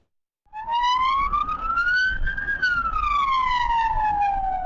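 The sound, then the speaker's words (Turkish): An ambulance siren wails loudly in traffic in Büyükçekmece, Istanbul, as a driver refuses to yield. Its tone climbs slowly, then falls in one long sweep over a low rumble. “Siren çalan ambulansa ısrarla yol vermeyen sürücüler karşınıza sizin de çıkıyordur.”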